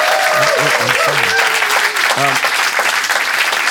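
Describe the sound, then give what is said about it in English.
Applause from an audience for a performer at a live radio show session, a steady, dense clapping that holds loud for the whole stretch while a man talks over it. “Yeah, that's it, man. That's cool. Give him a nice hand again.”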